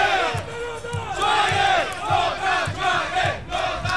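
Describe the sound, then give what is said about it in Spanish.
Football crowd at a Chilean club match in Lota chanting the team's name, with vuvuzelas blowing. Massed voices swell and dip in a steady rhythm over regular low drum-like thumps, with horn-like tones in the mix. “Se emociona el público cuando decimos esta reseña y comienzan a salir los Lota Lota y las bubucelas.”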